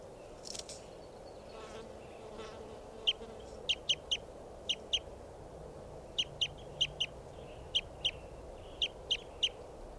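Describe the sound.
Bird calls outdoors: many short, high chirps in quick clusters, faint over a steady low background hum.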